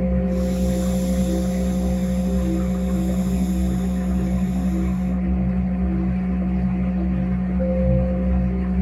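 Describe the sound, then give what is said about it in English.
A slow, deep inhale through the left nostril during a guided breathing exercise, heard as a steady airy hiss for about five seconds over a sustained droning tone. The hiss then stops while the drone carries on. “We're gonna inhale deep from the left nostril and the base of the spine, starting now.”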